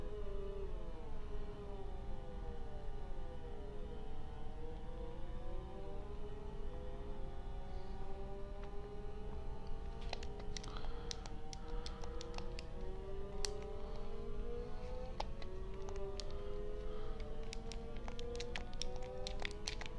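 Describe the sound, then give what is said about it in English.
A car engine in a racing video game whines steadily, its pitch sweeping up and down through shifts, joined in the second half by scattered light ticking clicks. “Well, while I'm racing, I'm going to look up and see if this is normal for this game.”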